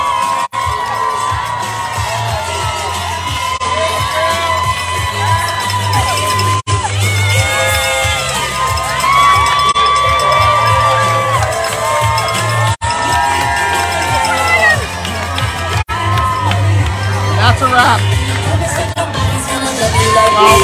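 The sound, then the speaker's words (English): A crowd cheers at the finish line of the St. Pete Run Fest 10th anniversary half marathon. Continuous whoops, shouts and high cheering voices, including children's, form a loud, sustained wall of sound with a few brief dips. “And just minutes ago, the sounds at the finish line.”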